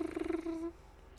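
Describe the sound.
A human voice imitates a house phone ringing with a single rolling, purr-like trill that resembles a cat purring. The buzzy, low-pitched burst lasts well under a second, then cuts off into quiet.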